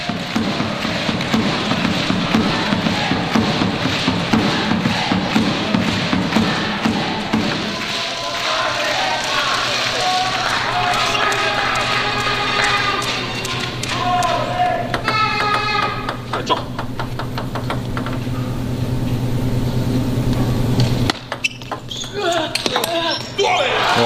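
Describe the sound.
Table tennis ball ticks ring out sharply as a serve opens a fast rally in a match, falling into a quick back-and-forth rhythm, with talk running over them throughout.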